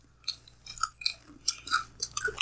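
Crunchy chewing of cheese balls, with a series of crisp, irregular bites and munches, quiet and without talk.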